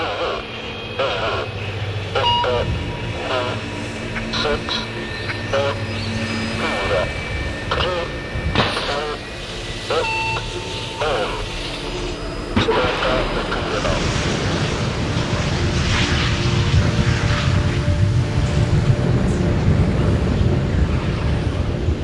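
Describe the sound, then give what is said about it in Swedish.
A rocket lifts off after a control-tower countdown in cold air, building into a deep, broad roar midway that swells steadily louder toward the end. “Raketen lyfter från marken och försvinner upp mot himlen.”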